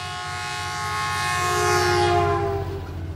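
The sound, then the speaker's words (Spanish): A train passes with its horn blowing: a sustained, chord-like horn tone over low rolling rumble, growing louder toward the middle and then easing off near the end. “Truenan trenes sin parar. Trenes truenan, vienen y van. Truenan trenes en la ciudad.”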